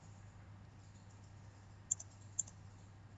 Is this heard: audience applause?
no